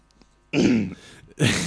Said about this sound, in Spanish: Has pronunciado Navarra y he tenido que toser.